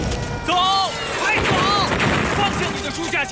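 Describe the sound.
Air-raid bombing: a loud, unbroken roar of explosions and gunfire-like blasts fills the whole stretch, with frantic voices shouting over the din.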